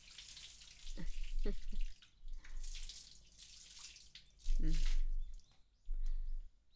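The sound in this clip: Hot water is poured to rinse, in several soft, separate splashing bursts with short quiet gaps between them.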